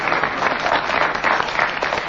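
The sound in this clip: Audience applause, loud, dense and unbroken for its whole length, with no talk over it.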